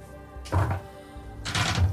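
Dice are rolled for an attack in a Warhammer 40k tabletop roleplaying game. Two short bursts of clattering, thudding knocks come about a second apart, the second slightly longer.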